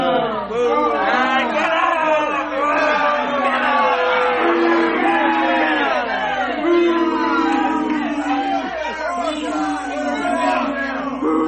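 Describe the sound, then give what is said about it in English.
A studio audience at a quiz show erupts in a loud, sustained uproar of shouts, whoops and cheering after many miss an answer, with the din holding steady throughout. “Oh, calm down, audience. They just missed it. Come on. And some of you got it.”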